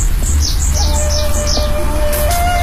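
Small birds chirping by a garden pond with lotus and reeds: a quick series of high, bright chirps repeating over a steady low rumble, with a faint thin tone running underneath.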